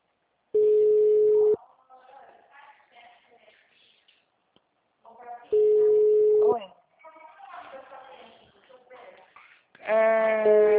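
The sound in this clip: A telephone ringing tone on a call line: two steady, low, one-second tones several seconds apart, with a voice talking between them and another voice entering near the end.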